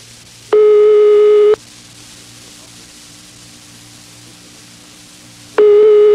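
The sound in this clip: Ringback tone on an outgoing telephone call: a steady buzzing tone sounds for about one second, then about four seconds of hissy line noise with a low hum, then the tone returns at the end.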